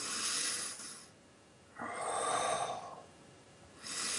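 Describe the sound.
A person takes deep breaths into the abdomen, producing a few long, airy, hissing breath sounds separated by short quiet gaps. The breathing is soft and steady, and no one speaks over it.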